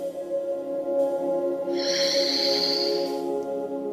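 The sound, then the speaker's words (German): A deep breath drawn in through the nose, then let out through the mouth during a guided breathing exercise, heard as one long soft hiss over a steady, sustained musical drone. “und atme jetzt dreimal tief durch die Nase ein und durch den Mund wieder tief aus.”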